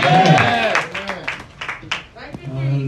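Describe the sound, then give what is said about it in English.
An audience applauds to welcome a preacher at a church service, with scattered clapping running under a loud voice that speaks over it throughout. “Put your hands together for the man of God. Let's welcome him.”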